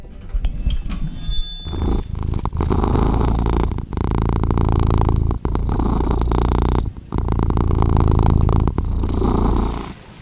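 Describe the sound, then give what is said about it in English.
A pet cat purring while held in a person's lap: a loud, steady, rumbling purr runs almost the whole time, with brief breaks between breaths and a short, quieter stretch at the start. “That is the sound of my little feline friend Quincy here, who has arrived at the decision that he likes me to hold him in my lap when I'm recording the podcast.”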